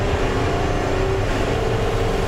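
A car engine on nitrous oxide boost roars loudly and steadily, a dense, constant drone with a sustained tonal hum running through it and no pauses.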